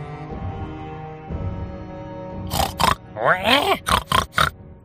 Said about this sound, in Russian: Меня разбудило громкое хрюканье вперемешку с визжанием.